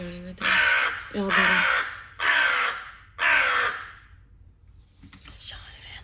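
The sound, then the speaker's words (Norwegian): A crow cawing very loudly at four in the morning: four long, harsh, rasping caws in a slow, steady rhythm, followed by fainter raspy sounds. “Ja, og jeg tror kanskje det der den mest høylytte kråka jeg noen gang har hørt i hele mitt liv.”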